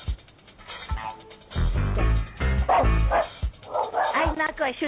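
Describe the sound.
A dog barks in a few short, sharp bursts mixed with whimpering, while people talk over it.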